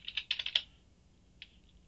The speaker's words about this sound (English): Let's go to their website real quick. As we type in, bear with us.